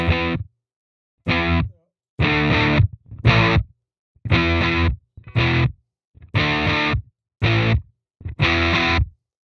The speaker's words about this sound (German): Erstmal vom Clean Amp. Hat wenig Verzerrung.